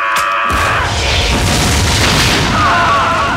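A flea bomb explodes through a floor: one loud boom that rolls straight into a sustained, roaring low rumble.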